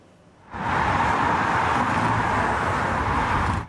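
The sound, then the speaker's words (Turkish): Steady roar of road traffic as holidaymakers return after the nine-day Kurban Bayramı holiday, with long vehicle queues on the roads. The continuous, even wash of engines and tyres fades in, holds level, then cuts off, with no talk. “Birçok kentte iki gündür yaşanan yoğunluk bugün de dün de devam etti. Yollarda uzun araç kuyrukları oluştu.”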